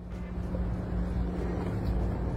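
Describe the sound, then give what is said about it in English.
A doggy daycare bus passing on the street gives off a faint, steady low engine rumble with a constant hum and no other sounds. “This is a doggy daycare bus. They've got a service. Doggy daycare.”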